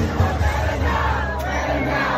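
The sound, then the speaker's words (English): A large concert crowd roars and cheers loudly without a break, a dense wash of voices as the singer performs on stage. “I think you can just hear him singing. Whole crowd's going sick.”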